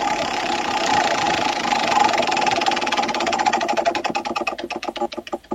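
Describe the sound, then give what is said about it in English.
A prize wheel spins during a points-based quiz game, giving a dense, whirring rattle whose ticks become distinct and slow steadily toward the end. “And so let's spin that wheel and see what we come up with.”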